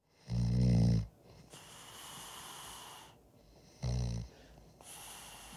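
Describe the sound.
A man snores while asleep in a recording studio. Two loud, rough, low snores rattle out several seconds apart, with quieter breathy noise between them.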